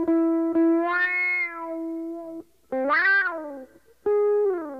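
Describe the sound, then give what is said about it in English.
Electric guitar through a pitch-following auto-wah pedal. Sustained notes are bent upward, opening the filter into vowel-like, meow-ish sweeps across three phrases separated by short silences. “So if I bend a note, it opens the wah.”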